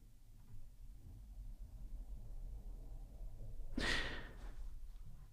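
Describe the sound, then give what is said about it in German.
A single slow, sigh-like breath during a guided breathing exercise rises out of a faint low hum. The audible exhale comes near the end and fades back into quiet. “Und ich atme noch ein, zweimal ein und aus.”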